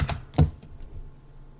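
Keys tapped on a computer keyboard while typing a message: a few soft, dull keystrokes spaced apart over a low, quiet background.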